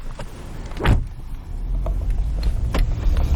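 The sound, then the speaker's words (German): A car starting and setting off in a harbour car park: a single brief thump comes early, then a low engine rumble rises and holds steady, with a few faint clicks above it. “Jetzt fahren wir zum Eurogate-Terminal, das heißt mitten in den Hafen zum Container-Terminal”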